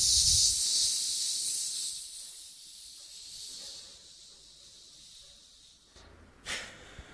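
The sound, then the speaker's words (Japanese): Sharp hissing exhalations during an abdominal breathing exercise: a loud, breathy hiss at the start fades out over about two seconds. After a quiet stretch comes one more brief, sharp hiss, with no talk. “スッスッスッ、吸って吐きながら、シュッシュッシュッ。”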